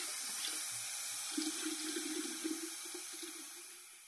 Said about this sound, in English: So I've got to get all these bowls and utensils and wooden spoons and spatulas and start the tap running and get down to my washing up.